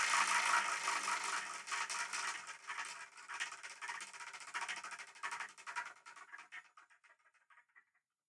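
A spinner being spun to pick a number rattles and ticks rapidly, the clatter thinning and fading away as it slows to a stop over about seven seconds.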